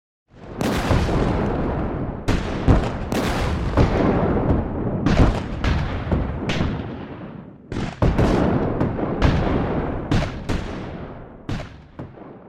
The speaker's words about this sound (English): Confederate batteries on all sides of the fort open fire.